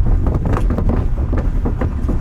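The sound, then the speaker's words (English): A car drives across the shifting wooden planks of Old Powder Point Bridge: a steady, loud, low rumble broken by several dull clunks as the boards move under the wheels. “There's nothing like the sound of planks shifting as you drive over Old Powder Point Bridge.”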